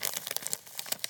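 Foley crinkling made by squeezing a stack of celery to imitate a chip bag: a brief burst of crisp crackles and rustles lasting about a second.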